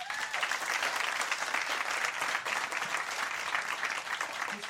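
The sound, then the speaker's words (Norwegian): Audience applause for an author at a book event: dense, steady clapping held at an even level throughout. “Dere må gi en stor applaus forfatteren Cecilie Winger”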